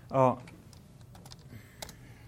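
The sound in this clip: Computer keyboard typing while code is written, faint scattered key clicks following a brief burst of voice at the start.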